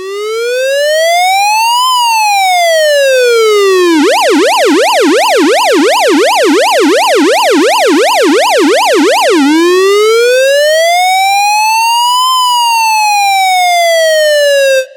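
A police car siren blares loud and alone, sweeping slowly up and down in a long wail, switching to a rapid warbling yelp in the middle, then returning to the slow rising and falling wail.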